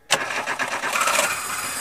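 A car with a dead battery starts with the help of a jump starter: a sudden burst of cranking catches quickly into a steady, running engine that carries on alone.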